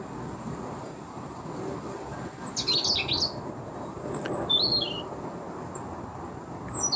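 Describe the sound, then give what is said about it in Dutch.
A robin sings its autumn song high in a hazel tree at a green spot in Utrecht, brief thin high-pitched phrases in two short bursts over a steady rumbling background. “Christine en Herman wonen al 20 jaar op een prachtige groene plek in Utrecht. En komen er nu pas achter dat het roodborstje, hoog in de hazelaar, een speciale herfstmelodie heeft.”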